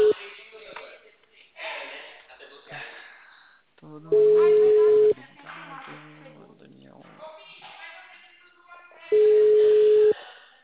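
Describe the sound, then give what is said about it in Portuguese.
An outgoing phone call rings back twice, each a steady one-second electronic tone, with people talking before and between the rings. “Tô ligando pra outra pessoa.”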